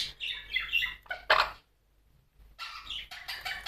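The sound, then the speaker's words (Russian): Arkasha, a pet bird, chirps in many quick, squawky, high-pitched bursts, breaks off briefly, then chirps again. “Аркаша, хорошая птичка. Хорошая Аркаша, Аркаша, хорошая птичка, птичка.”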